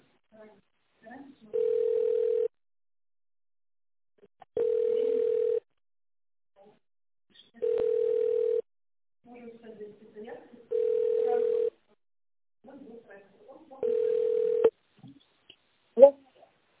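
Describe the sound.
Phone ringing tone sounds while an office call is transferred to another colleague. Five evenly spaced, steady mid-pitched tones, each close to a second long, are separated by pauses with faint scattered background noises.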